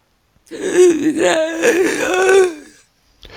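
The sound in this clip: A voice imitates a zombie's long inhale: one drawn-out, raspy, wheezing breath, voiced and wavering in pitch, lasting about two seconds, loud and alone, with another sound just starting at the end.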